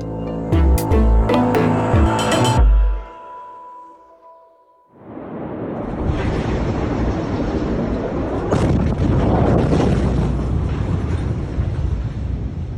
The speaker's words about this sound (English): That's the sound from earlier this week, the blast in Beirut that caused the deaths of at least 135 people.